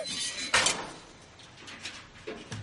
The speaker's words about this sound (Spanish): Lo guarda y cierra el conducto.